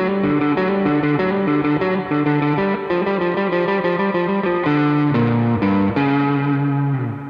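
An electric guitar plays through a Sugar Drive overdrive pedal and a Holy Grail reverb pedal. Its crunchy, distorted chords and notes ring out loud and continuous with a smooth reverb tail, and no voices are heard.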